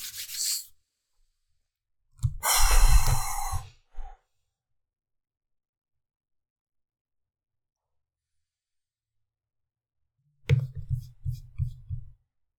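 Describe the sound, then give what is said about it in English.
A man takes a deep, noisy breath in, then there is a long silence, and near the end a few low, pulsing breaths or rumbles follow. “Going right in for some breath before I even touch that one. So give me a moment.”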